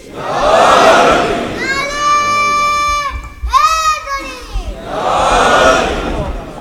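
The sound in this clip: A crowd at a religious gathering answers a Haidari slogan call. A roar of massed voices gives way to a single drawn-out call, then the crowd shouts back loudly in unison.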